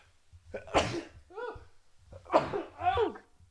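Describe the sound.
A sudden, sharp sneeze bursts out, followed by people talking briefly around it.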